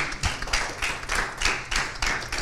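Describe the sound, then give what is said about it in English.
Hand clapping from a church audience applauding during a sermon, heard as a run of regular, rhythmic clap bursts, fairly loud, with no talk over them. “Boy, I didn't know I'd get an applause for that.”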